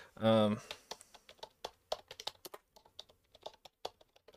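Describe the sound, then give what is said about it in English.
Typing on a computer keyboard follows a brief voiced sound at the start, with many quick, uneven key clicks tapping along at a steady working pace. “I'm going to type this in”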